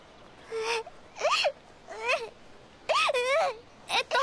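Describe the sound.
A young child cries in a series of wailing sobs, several rising and falling cries broken by short pauses, the last ones brief and clipped.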